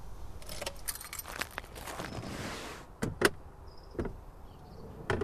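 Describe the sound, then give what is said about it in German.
Car keys jangle in the ignition of a car parked in a driveway, a bright metallic rattle followed by a few sharp distinct clicks, fairly quiet and without talk. “Sieh mal, die Schlüssel stecken ja.”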